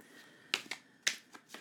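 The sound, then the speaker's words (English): Cards of the Harris Crowley Toth deck being shuffled, a few crisp, irregular slapping clicks over a quiet background. “Shuffling the cards. I'm working with the Harris Crowley Toth deck.”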